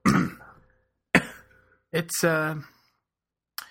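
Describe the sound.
Someone clears their throat after getting shellfish stuck in it, making several short, harsh clearing bursts separated by pauses, one of them with a voiced, groaning tone.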